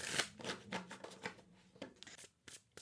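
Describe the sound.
Tarot cards being shuffled, with a series of soft rustling, riffling bursts and papery snaps at an irregular pace, heard alone without talk.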